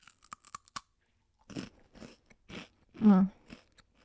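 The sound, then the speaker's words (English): Crunching and chewing of spicy edamame crisps: a few quick, sharp crunches, then irregular louder bites and moist chewing, close and fairly quiet, with no talk over them. “They are these little edamame like crisps. I don't know if they're healthy or not, and I'm eating the like spicy ones.”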